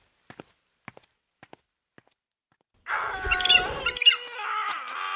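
Footsteps walking outside in a garden: a few faint, sparse steps spaced apart, followed by a louder, dense burst of chirping, bird-like sound.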